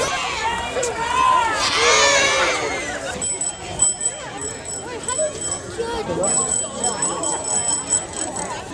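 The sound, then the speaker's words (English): A caravan of bikes and walkers sets off for Dolores Huerta school during Bike and Roll to School Week, with continuous rolling clatter, footsteps and mingled voices of children and adults throughout. “Once everyone is ready to go, the caravan of bikes, along with some walkers like your host, takes off for Dolores Huerta.”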